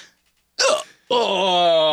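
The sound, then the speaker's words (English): A person's hiccup, one short, abrupt gulping burst, followed after a brief pause by a drawn-out voiced sound. “I've got the hiccups now. Oh shoot.”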